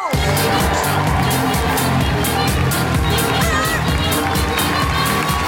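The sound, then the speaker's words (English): Applause and whooping cheers from a live comedy show audience as the first comedian is introduced: a dense, steady roar of clapping and shouting that fills the whole clip. “Put your hands together and make incredible woohooing noises for the wonderful Susie Ruffle.”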